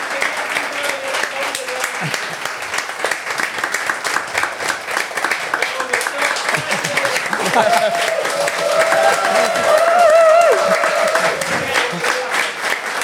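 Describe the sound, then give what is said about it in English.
Applause from an audience inside a running store as a Puma marathon runner arrives: a dense, steady patter of many hands clapping throughout, growing slightly louder in the second half, when voices begin talking over it. “Wow, thanks. What a welcome. Yeah. Do you normally get that when you come into the store? Oh, I know. Anyone would have thought they'd been told to clap.”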